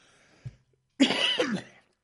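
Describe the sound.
A person getting over a cold coughs: one harsh, raspy cough lasting under a second, preceded by a faint soft tap, with no talk.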